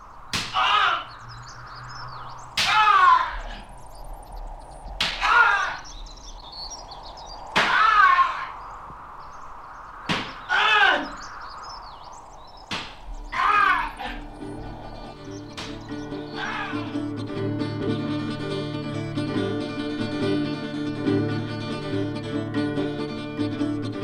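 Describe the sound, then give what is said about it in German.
Whip lashes during a flogging of a general tied to a tree, heard as a steady series of sharp, loud cracks, each followed by a pained cry. Music then rises and continues under the last strokes. “Noch in der Nacht verfolgte mich das Zischen der Peitsche und die Schreie des Generals.”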